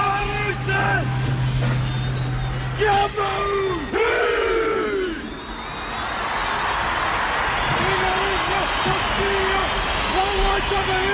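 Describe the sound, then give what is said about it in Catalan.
A rugby team chants the Maori haka war dance: loud male voices shout rhythmic, forceful calls in unison, then give way to a dense, steady wash of crowd noise. “Podem sentir un instant el haka?”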